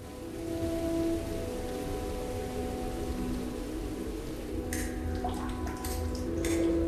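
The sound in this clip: Steady rain falling outside a building, a continuous soft hiss that holds throughout, with a few brief, sharper drips or taps near the end and no voices.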